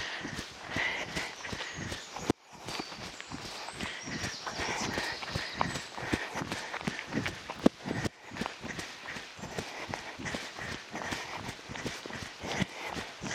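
Running footsteps outdoors in light rain, a fast, even rhythm of many footfalls kept up without a break, fairly faint.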